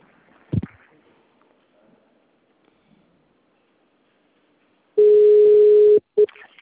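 A telephone line tone plays while a call is transferred. A single click breaks near-silence, then a long steady tone sounds for about a second, followed by a short beep.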